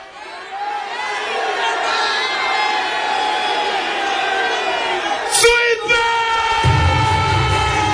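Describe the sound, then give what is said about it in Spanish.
Crowd cheering and shouting at the final of a rap battle in Seville: a dense, loud roar of voices that holds steady throughout, with a brief surge of yells near the end. “El público se vuelca porque el jurado ha decidido que el vencedor es...”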